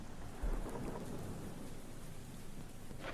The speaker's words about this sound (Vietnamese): Chạy trong mưa trong gió, bất chấp ở trên bầu trời, sấm sét mưa gió vẫn cứ nổ đùng đoàng, mây đen vẫn cứ vần vũ.